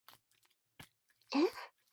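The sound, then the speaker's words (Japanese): Wet tongue-kissing sounds, a close mouth-to-mouth kiss, with a few faint clicks and smacks, then one longer, louder slurping burst carrying a brief rising murmur, and a last smack at the end; no talking. “お兄様と舌を絡め合うキス好き。”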